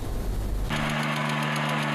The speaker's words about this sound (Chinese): 现在呢，在我的身后，四台大马力的七息播种机正在全力推进完成最后一块大豆田的播种作业。